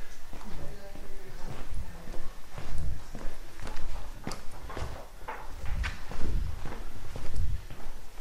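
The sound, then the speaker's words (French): Footsteps climb to the upper floor of a historic house museum, with a series of irregular thuds and scuffs at a steady walking pace and voices faintly present underneath. “Ok, je monte à l'étage.”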